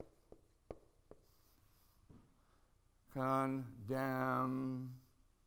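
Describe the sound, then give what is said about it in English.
Writing on a board: a few sharp taps and soft scraping strokes, fairly faint, followed by a louder sustained passage toward the end. “time for another run here at the board. I'm going to write down three things.”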